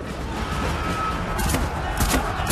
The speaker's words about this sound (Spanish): Guardias armados con equipo antidisturbios salen a las pasarelas superiores y disparan a los hombres que están abajo.